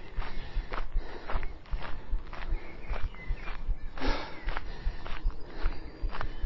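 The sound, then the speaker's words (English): Footsteps of a runner walking back down a hill in Christmas Hills after a hill sprint, many steady, rhythmic steps at a moderate, even pace. “Whew, take your breather. Let's walk back down.”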